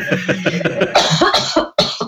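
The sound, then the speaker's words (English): A person with a hair caught in the back of the throat coughs repeatedly in short, irregular bursts of rough, throaty sound, loud and close together. “Well, while you're coughing, you can cough. Keep coughing.”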